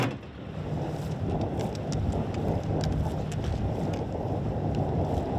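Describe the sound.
A catamaran sails at sea. Steady rushing wind and water noise fills the whole stretch without a break, with faint scattered clicks above it.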